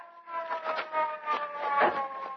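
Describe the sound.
Police car siren approaching, a harmonic, wailing tone that wavers and swells in loudness over a couple of seconds, growing somewhat stronger toward the end, with no voices over it.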